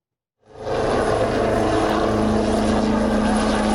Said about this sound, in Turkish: Gökyüzü önce Gökbey'in pervane sesleriyle yankılandı, Hürkuş ve Hürjet peş peşe havalandı.